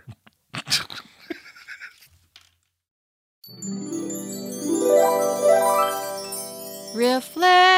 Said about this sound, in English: Wind chimes.